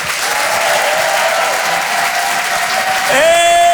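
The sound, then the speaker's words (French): Applause from a live comedy audience welcoming a comedian: dense, steady clapping and crowd noise throughout, with a sustained tonal sound entering near the end. “Faites un maximum de bruit, s'il vous plaît, pour Nick Mukoko.”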